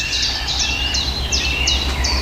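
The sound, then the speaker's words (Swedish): Woodland birdsong from chiffchaffs, a blackcap and a chaffinch: a steady series of short, high, bright phrases repeated every half second or so, layered over a constant low rumble. “Svarthättan igen. Och gransångarna är väldigt påtagliga här nu. Bofinken har vi ju fått igång.”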